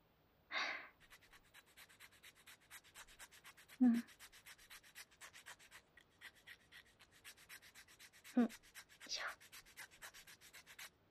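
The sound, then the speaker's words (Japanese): Rapid rasping strokes of a file worked back and forth in a steady, dense rhythm, broken by a few louder knocks, with no voices. “これで大丈夫そう。なら、このままこっちもヤスリを。”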